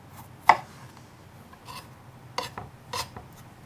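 A kitchen knife slicing garlic, giving a few sharp, light cutting taps at irregular spacing, with one crisp tap near the start standing out; quiet overall.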